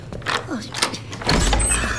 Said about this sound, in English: Who's there? Open the door.